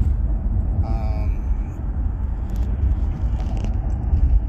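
Car interior while driving: a steady, low rumble of road and engine noise runs throughout at a constant level, with a few faint higher sounds passing briefly.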